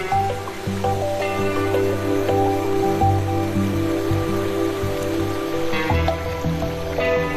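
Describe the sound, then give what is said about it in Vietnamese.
Water flowing into a wetland marsh on the outskirts of Las Vegas, in the desert, gives a steady, dense rushing wash that stays even and fairly loud throughout. “Nước chảy tới một khu vực đất ngập nước ở ngoại ô thành phố, khu đầm lầy của Las Vegas.”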